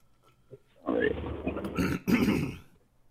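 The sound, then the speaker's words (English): A person clearing phlegm from the throat: two rough, guttural bursts, the first longer and the second following after a brief pause, both fairly loud. “I got some phlegm in my throat.”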